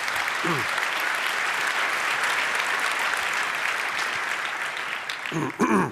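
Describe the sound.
An audience applauds to welcome a speaker at a security conference, a thick, sustained clapping that eases off slightly toward the end, with a voice briefly at the start and again just as it closes.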